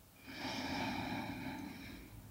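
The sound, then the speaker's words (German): A slow, deep breath drawn in through the nose during a guided relaxation and breathing exercise. The inhale is soft and airy, lasting about two seconds, with no talking over it. “nimm einen tiefen Atemzug über die Nase.”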